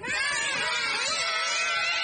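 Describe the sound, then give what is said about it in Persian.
Children scream as they are thrown into shallow water, overlapping high-pitched shrieks held loud and unbroken throughout. “داد نزنید باشه، پسرها دارن میترسن.”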